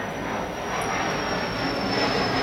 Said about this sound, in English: That plane is landing on your driveway.